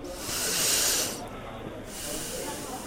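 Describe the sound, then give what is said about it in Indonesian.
A child breathes deeply through the nose, a broad airy hiss that swells and fades, followed by a second, softer breath. “Sekarang coba kamu tarik nafas dalam-dalam melalui hidung.”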